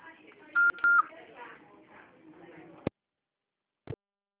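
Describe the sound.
An answering machine beep, a steady high tone lasting about half a second, sounds over a voice giving a greeting. A couple of sharp clicks follow before silence.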